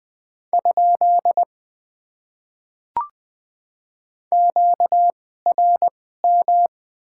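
Morse code at 20 words per minute sends a question mark as a steady mid-pitched tone in short and long beeps. A brief click follows, then further groups of beeps.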